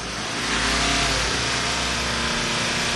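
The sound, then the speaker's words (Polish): A car engine is revved during a roadside exhaust emission check, swelling quickly to a loud, steady, high-revving roar that holds for several seconds, with no voices. “Także na mój znak bardzo bym prosił zwiększyć obroty.”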